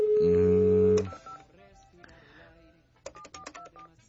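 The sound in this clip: Telephone keypad tones while redialing a number: a steady electronic tone holds for about a second, then after a quiet gap a quick run of short, bright dialing beeps.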